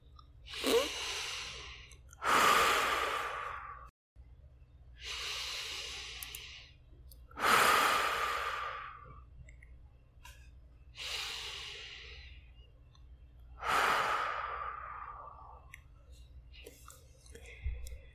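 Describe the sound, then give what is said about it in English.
Three deep breaths during a seated or lying guided meditation, each a slow inhale followed by a longer, airy exhale, making six soft breathy surges in an even, unhurried rhythm with no talking. “Close your eyes. Then take three deep breaths.”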